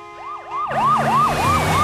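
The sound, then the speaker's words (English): Emergency vehicle sirens wail as they speed through a city. The loud up-and-down yelp repeats many times in quick succession, and a broad rushing rumble joins underneath after the opening moments. “The empty emergency vehicles are speeding through the city.”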